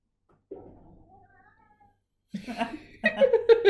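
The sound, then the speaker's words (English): A cranky cat meows near its dinner time: one drawn-out, wavering meow, a short gap, then a few louder, shorter meows in quick succession. “we just heard Taj's cat Neo. It's getting close to dinner time and he's cranky.”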